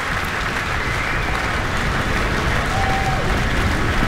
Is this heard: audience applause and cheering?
yes